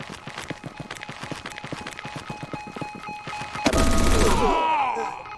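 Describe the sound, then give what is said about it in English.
Machine gun fire in a video game: rapid, sharp shots repeating in a fast, loud stream, swelling into a denser, louder roar near the end. “Machine gun.”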